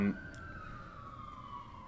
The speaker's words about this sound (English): I was just waiting for the sirens to go by.